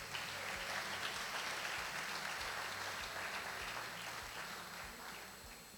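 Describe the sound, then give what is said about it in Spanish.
Audience applause for the king: steady, dense clapping from a crowd that holds at an even level and fades slightly toward the end. “Un fuerte aplauso al rey.”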